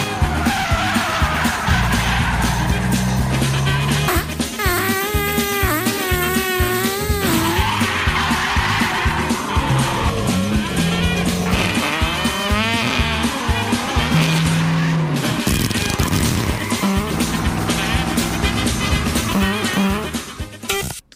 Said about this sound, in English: our social justice warrior is in pursuit. In an electric vehicle that he stole from his mom, which runs on unicorn farts. Let's join the exciting chase.